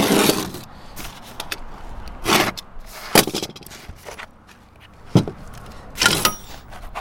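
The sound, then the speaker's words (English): Knife slices skateboard grip tape in a straight line, giving several rough, rasping scrapes separated by quiet pauses. “So I'm just trying to make a nice straight cut here.”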